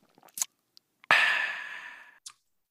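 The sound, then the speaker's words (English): Someone takes a taste of a cayenne ginger kombucha, with a few faint small sips and clicks, then a long breathy sigh that trails off slowly. “Let's go ahead and take our little taste of this cayenne cleanse.”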